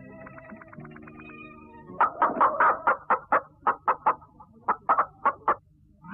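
A greedy egg-laying hen clucks in a rapid, rhythmic run of short, sharp calls. The clucks are fairly loud and alone.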